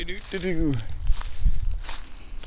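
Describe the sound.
Footsteps of a person walking outdoors, a few soft thuds and rustles that follow a brief spoken voice.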